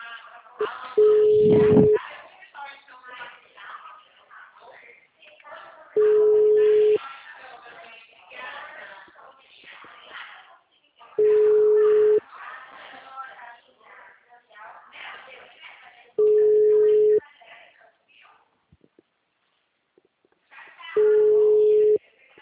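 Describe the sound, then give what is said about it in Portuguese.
A telephone line tone follows dialing zero to call out: five steady one-second beeps at even, widely spaced intervals. People talk quietly in the gaps between them. “Zero aqui no telefoninho, né? Para ligar para fora.”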